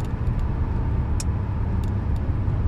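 Steady low road rumble of a car being driven on a road trip, a continuous engine and tyre drone with a few faint high ticks over it and no talking.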